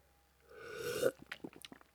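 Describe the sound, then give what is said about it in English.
An exaggerated slurp of a drink with caramel syrup: a hissing intake that swells for about half a second and cuts off sharply, followed by a few small wet clicks and smacks. “If you want to join me in another exaggerated radio slurp, then feel free. 3, 2, 1.”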